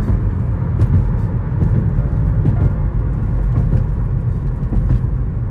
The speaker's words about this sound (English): On my early day drive, I have the privilege to look into the sun as I drive up this beautiful ramp.